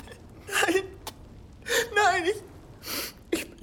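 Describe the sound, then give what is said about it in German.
A person crying: a few bursts of shaky, whimpering sobs and catching gasps, with quivering pitch and short quiet pauses between them. “ist mein Anblick so schrecklich, dass du weinen musst, wenn du mich siehst?”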